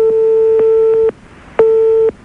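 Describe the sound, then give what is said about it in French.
An unanswered telephone call sounds as a steady, loud electronic tone on the line. It comes in two long bursts with a short silent gap between them, with no voices. “On essaie de t'appeler là pour l'instant, Grégory, ça sonne dans le vide.”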